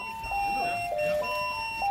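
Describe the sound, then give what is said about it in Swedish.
Fire station alarm signal sounding at night, a loud electronic tone that steps between a few pitches over a thin, steady high whine. “Jag vaknar hastigt av lampornas starka ljus och den höga signalen från larmet.”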